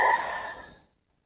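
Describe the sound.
A slow exhale during a breathing exercise: one long, soft breath out that starts fairly strong and tapers away to silence within about a second, heard alone.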